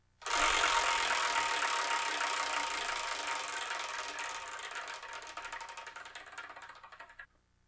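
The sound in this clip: A prize wheel spins to pick the next manga title, giving off a fast, dense ratcheting clatter of clicks. The clatter starts loud, slowly fades and thins, then stops abruptly near seven seconds.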